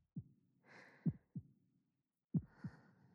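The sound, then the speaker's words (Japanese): A quiet heartbeat gives low, muffled thumps that fall in lub-dub pairs at a slow, steady rhythm, heard alone with no voices. “心臓の音にはリラックスする効果があるとよ。生まれる前から体に馴染んどる。”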